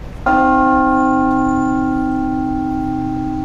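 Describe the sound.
A great two-ton church bell of modern casting with finely tuned harmonics, struck once loudly and left to ring, its layered tones and deep hum sustaining evenly with only a slow fade.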